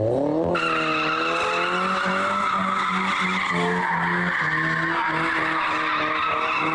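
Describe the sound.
Loud, continuous tire squeal from cars drifting in Ankara, a shrill wavering screech with engine whine underneath. It holds without a break from start to finish.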